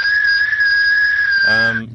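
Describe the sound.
A person whistles a single sustained high note, loud and steady in pitch, holding it for well over a second before it stops.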